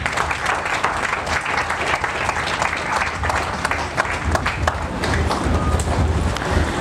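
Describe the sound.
Congregation applauding in church, a loud, dense and irregular patter of many clapping hands that continues steadily throughout.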